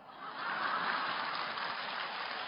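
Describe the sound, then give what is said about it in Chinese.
Thin, sparse applause from an audience at a humorous talk: a soft, steady patter of clapping that swells slightly and then holds at an even, modest level throughout. “一点都不幽默的，掌声这么一点点。”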